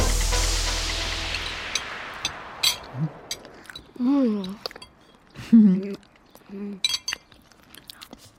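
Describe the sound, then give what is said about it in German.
People chew and eat lime cake, with soft crunching, a few sharp clinks and clicks, and voices murmuring in between. “Schön, dass es euch schmeckt. Drei Stücke schaffe ich noch. Oh. Mmh, wunderbar zitronig. Limettig. Die Limette macht den Unterschied.”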